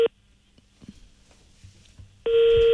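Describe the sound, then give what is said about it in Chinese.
Telephone ringback tone of an unanswered call: a short steady tone at the very start, near-silence with faint rustling, then a loud, even, sustained tone running to the end. “我们打好像是打不通，没人接，至少是没人接这个电话。”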